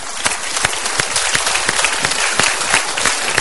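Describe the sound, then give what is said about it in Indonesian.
Studio audience applauding after voting on a choice in a televised talk show: loud, dense clapping with many overlapping sharp hand claps, sustained and even throughout with no talk. “Terima kasih. Tepuk tangan untuk pilihan Anda.”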